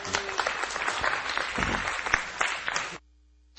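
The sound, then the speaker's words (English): A church audience applauds the announcer during a morning service. The clapping is steady and fairly loud for about three seconds, then cuts off abruptly into near silence. “I'm just going to turn it over and let the announcement person do his thing. Adam. Give Adam a hand.”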